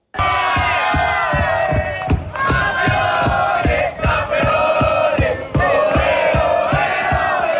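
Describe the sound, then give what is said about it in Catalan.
Football players celebrating a cup final win, cheering and chanting loudly together over steady rhythmic clapping that keeps going from start to finish. “És el so de la celebració dels jugadors de l'Atlètic d'Escaldes”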